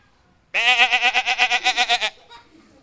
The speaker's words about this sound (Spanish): Cordero, cordero. ¡Bee!